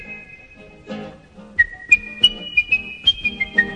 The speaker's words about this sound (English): Not bad whistling, not bad.